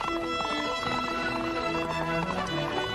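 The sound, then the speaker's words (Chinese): Horses gallop along a dusty road, their hoofbeats clip-clopping steadily under continuous music. “楠和警卫班长丁大勇跃上马背，迅速地沿着公路向前驰去。只见公路上扬起阵阵尘土，李楠骑着旅长给他的火龙马飞驰而过。”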